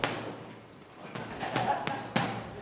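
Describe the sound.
Punches from a boxer training in an underground boxing gym land as a few sharp, dull thuds spaced irregularly, standing out against a quiet background.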